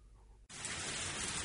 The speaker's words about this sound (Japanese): 少し雨は降ったものの、農業の役には立ちそうにない。